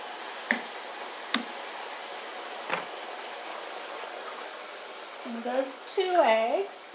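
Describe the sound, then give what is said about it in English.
Eggs cracked into a hot pan of vegetables for fried rice: three sharp cracks over steady, faint sizzling, followed by a person speaking. “and then crack a couple of them in the space that I've made directly into the pan. In goes one egg.”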